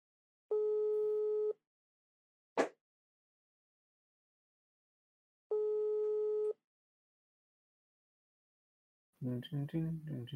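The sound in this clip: A WhatsApp call ringing tone plays as two steady, one-second electronic tone bursts several seconds apart, with a short click between them, before a voice starts talking.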